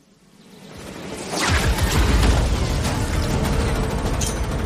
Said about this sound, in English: So we just saw a grenade.